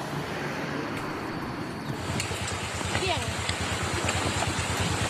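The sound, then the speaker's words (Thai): Flash-flood water from the Khao Kho hills pours into a canal in Lom Sak district, Phetchabun, muddy and reddish. It makes a steady, dense roar of rushing water that grows slightly fuller partway through and continues unbroken. “นี่เป็นคลิปวิดีโอที่ชาวบ้านบันทึกภาพไว้ได้ค่ะเป็นน้ำป่าจากเขาคอนะคะหลากลงคลองในหมู่ที่11ตำบลบุ่งน้ำเต้าอำเภอหล่มสักจังหวัดเพชรบูรณ์เมื่อวาน”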